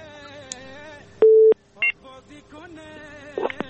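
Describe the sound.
Telephone tone after a caller's line drops: one loud, steady tone holds briefly, followed by a few shorter, fainter blips over a faint background.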